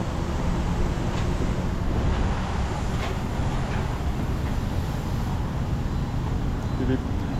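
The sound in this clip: A car reversing through a car wash, heard as a steady, loud rumble mixed with hissing spray and churning noise that holds an even level throughout.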